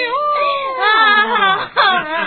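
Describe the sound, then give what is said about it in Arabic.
Wavering, whimpering sobs in a voice imitating a lonely creature's crying. The wails are continuous and loud, shifting in pitch, with a brief catch of breath near the end. “لماذا أنت تبكي الآن؟”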